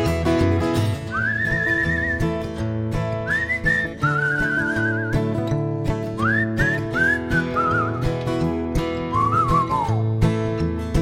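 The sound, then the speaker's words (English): Whistling carries a tune in several short, rising and gliding phrases, bright and clear above steady band music with a bass and drum beat. “Let's all whistle, shall we?”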